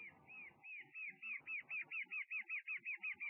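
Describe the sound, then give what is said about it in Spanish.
Brown antshrike (batará parda) calling in the forest: a long, faint series of short, arched whistled notes, spaced a little wider at first, then repeated at a quick, even pace. “Esta es la batará pardo, también dentro del monte vive, ¿no? De color marroncito, una ave que se ve poco, pero se escucha mucho.”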